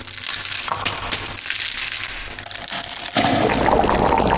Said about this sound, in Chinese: 熬煮5个多小时，倒入卤汁中，最后加入黑芝麻，增加天然的黑色。